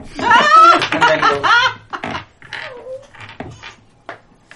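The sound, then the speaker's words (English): A person imitates a howl during a tabletop role-playing game: a loud, drawn-out voiced cry with wavering pitch, then laughter and a few quieter vocal bursts. “And let's out a howl.”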